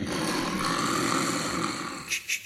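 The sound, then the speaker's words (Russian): Snoring from a sleeping pharmacist, a rough, continuous rasping drone that ends in two short, louder snorting bursts. “Однако, слышите храп?”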